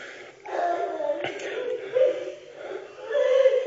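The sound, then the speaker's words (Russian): A mother crying: sustained, wavering voiced wails that swell and ease a few times, fairly loud throughout. “Кто там плачет? Мать? Бедная.”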